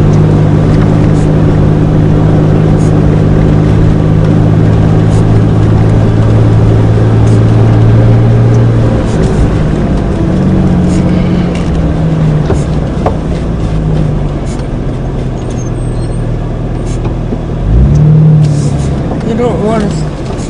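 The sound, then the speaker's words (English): A small Toyota Tercel car driving, its engine giving a steady low drone that runs through the whole clip with little change in level. “Could drive my little Toyota Tercel up here.”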